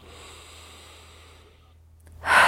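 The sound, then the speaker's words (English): A big deep breath taken during a finger-tapping exercise: a faint airy hiss fades away, then a loud, rushing breath bursts in at the very end. “Tap the index finger, big deep breath.”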